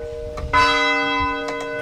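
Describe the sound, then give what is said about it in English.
A church bell in Thetford, Vermont, rung in the evening, gives a clear strike that rings out into a bright, sustained tone with layered overtones slowly fading. “bells rang out from 5 churches and school buildings in Thetford every evening at 7, including where Erica worships, the United Church of Thetford.”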